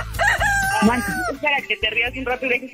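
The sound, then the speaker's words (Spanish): A rooster crows in one long, wavering, falling call, followed by a voice talking. “¿Qué onda, pinche gallo?”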